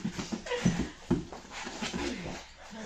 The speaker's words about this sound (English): I'm so sorry I brought the dog.